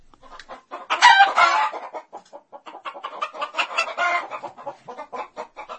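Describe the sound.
Chickens clucking, a rooster and hen in a henhouse: many short, busy clucks in uneven bursts, loudest and densest early on, then a steady run of lighter clucks.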